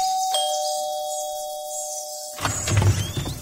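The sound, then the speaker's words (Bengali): A doorbell rings at a one-storey wooden house with a wire-mesh-enclosed veranda, giving a single sustained electronic tone that lasts about two seconds. Then it cuts off and is followed by a brief thump and rustling. “একটু ইতস্তত করে doorbell বাজালাম।”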